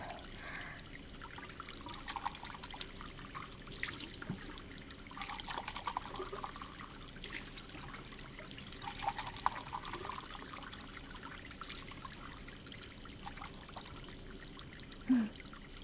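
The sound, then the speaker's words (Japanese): Water runs from a tap as a cup is rinsed and washed, a soft, steady trickle and splash that carries on quietly and evenly with no talking. “まずはコップを流して洗って。”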